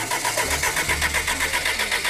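Engine starting attempt on a Lancia Delta Integrale that looks worn out: a steady, rhythmic churning pulse of cranking that stays even and never catches into an idle, with no voices.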